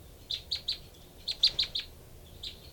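Two birds calling in a duet, a female answered by a male: three quick high chirps, a pause, then four rapid chirps, and finally one fainter chirp, all clear and alone over a faint background hiss.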